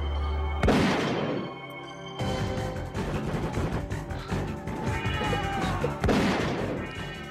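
Canned 12-gauge shotgun blasts boom out as a few loud, sharp cracks, each trailing into a rumble, set over dense music with no voices.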